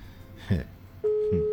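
An unanswered phone call ringing: a steady single-pitch ring tone starts partway through and holds to the end, with a couple of soft low thumps around it.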